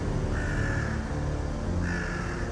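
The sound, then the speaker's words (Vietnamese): Crows cawing mournfully: two drawn-out, harsh caws, one after the other, rise above a dense, continuous low rumbling background. “giữa tiếng quạ kêu thê lương não nục”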